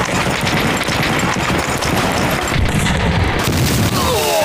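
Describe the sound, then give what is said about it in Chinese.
Artillery fire in a wartime battle scene: a dense, continuous barrage of overlapping booms and blasts that stays loud and steady throughout, with no pauses between shots. “司令，不好了，共军打炮了！”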